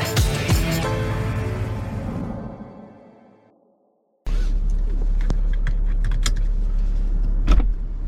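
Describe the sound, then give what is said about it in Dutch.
A car driving: a steady low engine and road rumble with scattered light clicks, preceded by a fading mechanical whir and a brief moment of silence. “We gaan een rondje rijden.”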